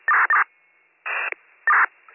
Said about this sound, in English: Getting the tones now.